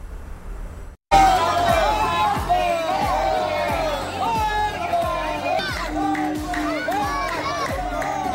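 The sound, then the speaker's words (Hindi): Crowd of kanwar pilgrims chanting the Bol Bam slogan on the pilgrimage to the Parshurameshwar Shiva shrine: a loud mass of overlapping voices bursts in after a second of near silence and continues steadily with pitched, chant-like shouts. “बोलबम का नारा है और भोले का सहारा है।”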